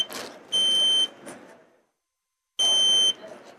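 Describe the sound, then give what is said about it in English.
A smoke detector's test alarm beeps as its button is pressed: two long, loud, piercing electronic tones separated by a silent gap, with rustling background noise around them. “You would actually train the system to your smoke detector just by pushing the little test button that everybody's familiar with.”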